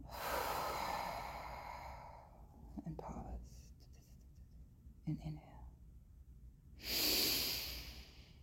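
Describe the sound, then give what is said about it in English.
Slow, deep breathing during a guided relaxation exercise: a long, airy inhale, a quiet pause with a few faint small sounds, then a breathy exhale. The whole clip is soft and hushed. “breathe. And pause. And exhale.”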